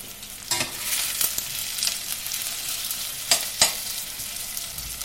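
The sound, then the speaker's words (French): Onions browning in a pan give off a steady bright sizzle, with a few sharp crackles and pops rising above the hiss; no voices are heard. “Les oignons qui sont bien colorés vont donner davantage de goût”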